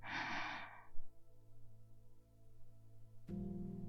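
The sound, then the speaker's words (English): A deep breath is exhaled slowly in a single soft, airy rush that lasts under a second, over faint steady background tones. A brief quiet follows, then a voice begins near the end. “So take another beautiful deep breath. Hold it. Now exhale slowly.”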